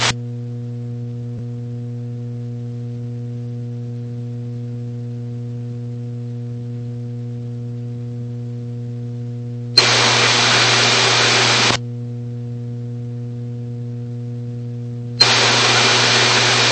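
An aircraft radio transmission carrying only a bare carrier with no voice: a steady low hum is broken twice by abrupt bursts of flat hiss, the first about two seconds long and the second shorter, each cutting off sharply.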